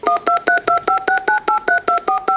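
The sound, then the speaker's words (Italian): Telephone number dialed on a keypad: a quick, evenly spaced run of about a dozen short two-tone beeps, loud and clear, with no voices. “Faccio sul numero e vediamo se risponde, ok?”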